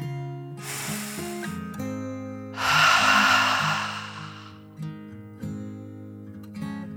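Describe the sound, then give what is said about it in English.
A deep, slow breath in and out, taken as a calming dragon breath in a children's relaxation story: a short airy inhale, then a longer, louder hissing exhale, over soft sustained background music. “Finally, Callie took one more deep dragon breath in and out.”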